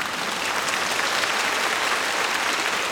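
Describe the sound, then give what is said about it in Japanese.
Audience applause at a performance honoring a soloist: a continuous, even roar of many hands clapping at once, steady in loudness throughout, with no voices over it. “大きな拍手をお願いいたします”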